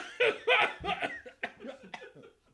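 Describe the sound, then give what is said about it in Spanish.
A person coughs several times in quick, harsh bursts that trail off into softer, breathy sounds. “Bueno, pues continuamos para bingo Y voy a toser un poco.”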